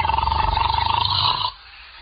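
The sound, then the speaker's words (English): A man snoring in bed gives a loud, rasping snore with a fast, regular rattle that lasts about a second and a half before cutting off abruptly into quiet. “must you start snoring as soon as you close your eyes?”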